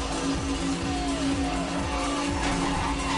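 A car drifts with its tires skidding: a steady engine drone runs beneath continuous squealing tire noise throughout, with no talk.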